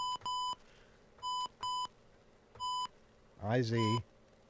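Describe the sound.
Telephone keypad tones dial a toll-free number: several short, clean electronic beeps at uneven intervals, moderately loud, followed by a brief burst of other sound.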